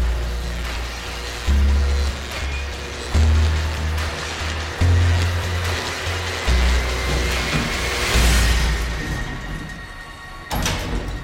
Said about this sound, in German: Der Aufzug fährt nach oben.